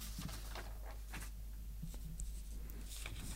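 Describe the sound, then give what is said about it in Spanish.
Papers rustle and shuffle as they are handled, giving a few soft, crinkly scrapes and brushes that are faint and irregular. “Están sonando los papeles”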